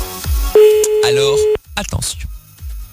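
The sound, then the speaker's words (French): A steady telephone line tone sounds while a contest winner is being phoned. It holds one even pitch for about a second between bursts of lively talk before and after. “c'est parti, on y va, on appelle maintenant le gagnant ou la gagnante du jeu sur le Facebook”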